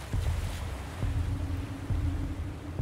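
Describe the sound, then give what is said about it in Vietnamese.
Angry sea waves surge in a continuous heavy roar with repeated low thuds, as rough water and wind rock a small boat on a river. “Tiếng sóng ở đâu bỗng dưng ùa dậy, nghe như tiếng sóng biển giận dữ.”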